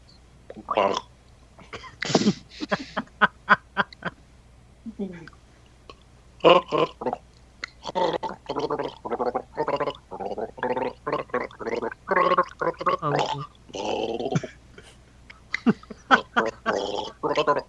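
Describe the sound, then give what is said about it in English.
A person gargling a tune, the Christmas carol The Twelve Days of Christmas, in a long run of bubbling, voiced bursts with a rhythmic, sung phrasing and short breaks between phrases. “let's carry on with the gargling thing”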